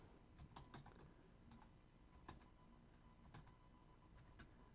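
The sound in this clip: Someone types a tweet on a computer keyboard, producing faint, irregular clicks and taps of keys in a steady, quiet stream, with no voices.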